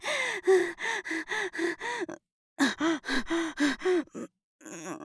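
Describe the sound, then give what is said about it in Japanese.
Deliberate, heavy exhalations during exercise: many short, voiced huffing breaths in quick rhythmic bursts, a brief pause, then another run of forceful breaths, ending on softer, quieter ones. “だけど呼吸が大事って聞いたから。大きめに息吐いてるの。”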